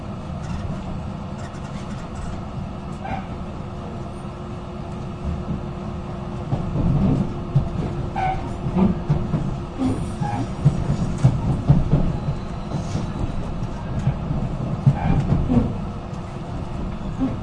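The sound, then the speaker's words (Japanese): Limited express train arriving at its terminal station: a steady low rumble with intermittent clickety-clack, growing louder and busier midway as the cars roll in. “特急あずさ号ご利用いただきましてありがとうございました。終点の松本に到着です。”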